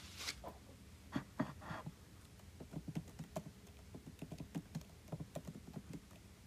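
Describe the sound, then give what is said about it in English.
Faint typing on a computer keyboard makes an irregular patter of soft key taps, some in quick bursts and others spaced apart, with no voices. “Let me type it.”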